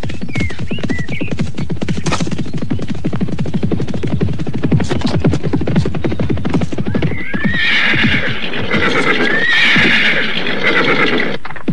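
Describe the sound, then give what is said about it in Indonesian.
Hooves of several horses galloping as riders, soldiers, spur them on: a rapid, dense stream of many hoofbeats, then loud neighing and whinnying over the continuing gallop. “Mereka berada di lima bagian sambil terus memacu kuda.”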